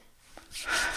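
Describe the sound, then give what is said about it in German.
A deep breath is drawn in, beginning with a brief soft sniff and followed by a longer, airy, hissing inhale that swells and then holds. It is quiet and heard alone. “Ich nehme jetzt nochmal einen tiefen Atemzug vom Shinrin Yoko.”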